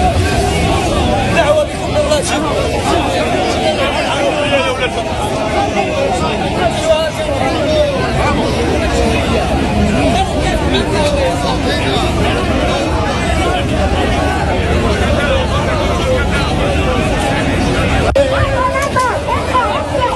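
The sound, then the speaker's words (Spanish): Crowd noise at a street protest during police charges: a dense, unbroken babble of many voices, loud and steady throughout, with no single voice standing out. “la tensión, las cargas policiales y cómo la policía ha sido superada precisamente por esta situación. Ese solo es el sonido, nos falta la imagen”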